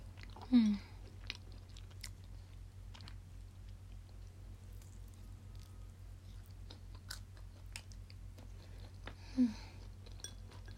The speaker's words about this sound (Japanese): 枝豆美味しい。おばあちゃんありがとう。